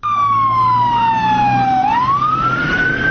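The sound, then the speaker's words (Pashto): A loud emergency siren wails in Kabul after a suicide bombing, with fire engines and ambulances responding. Its tone glides slowly downward, then sweeps back up, over a low rumble of traffic. “د پیخي په سیمه کې د اطفایو او امبولانسونو غږونو یو ځل بیا د ښار د اوسیدونکو ژوند نارامه”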